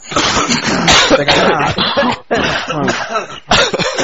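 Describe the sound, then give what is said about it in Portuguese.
Several people clearing their throats and noses at once, a loud, dense jumble of harsh hawking, snorting and coughs that runs for about four seconds with two brief gaps. “momentos de limpar a garganta e nariz, por favor, todo mundo.”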